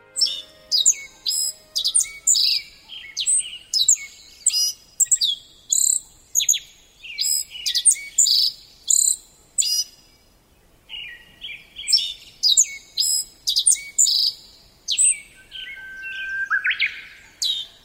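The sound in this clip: Black-faced bunting song rings out on a foggy mountain trail in the morning. The bird is a sparrow-sized bunting about 16 cm long, and it repeats many short, bright, high chirping phrases in quick succession with brief pauses between them.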